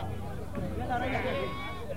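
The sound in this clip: Sheep bleating at a Bedouin livestock market, with a wavering bleat or two rising over a constant background hubbub of crowd voices and noise.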